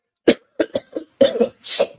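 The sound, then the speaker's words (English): A smoker's cough, worsened by smoking joints, comes as a run of sharp, dry hacking coughs in uneven bursts. A closely packed cluster of them falls near the end. “I know I say it every week that having a joint doesn't help my cough”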